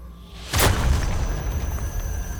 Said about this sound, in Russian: В вышине полыхнуло пламенем, донесся отзвук взрыва, и свечение над колонной погасло.